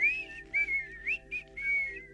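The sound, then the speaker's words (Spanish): Short, relaxing human whistle: about five soft, high notes in a gentle, wavering melody over a faint low hum. “Yo te he puesto a ti un silbidito para que tú te relajes.”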